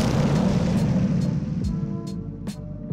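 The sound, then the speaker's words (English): A bomb explosion sound effect gives a heavy roaring blast with a deep rumbling low end that slowly decays, with a few brief higher crackles and falling low tones toward the end. “Ayo Flex drop the bomb on them.”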